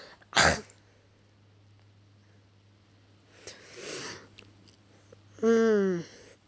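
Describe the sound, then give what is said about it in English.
Throat clearing: a sharp, harsh burst near the start, then a softer rough rasp a few seconds later and a short voiced sound at the end, with quiet gaps between. “Throat clearing is awful.”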